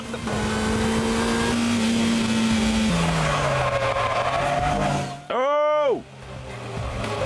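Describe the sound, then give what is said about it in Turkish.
A car's engine accelerates as the driver presses the gas, giving a steady rising drone with a drop in pitch partway through, then a brief sharp tire squeal that arcs up and down before the engine continues. “Bir de gaza bastığım zaman ivmelenmeyi hemen hissediyorum.”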